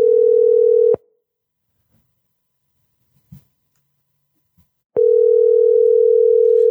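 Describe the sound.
A telephone tone while calling a number: a steady, mid-pitched hum holds for about a second, then cuts to roughly four seconds of near silence with a faint click before the tone returns and sustains.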